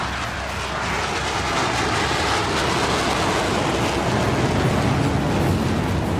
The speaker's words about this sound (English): And a B-2 stealth bomber is another.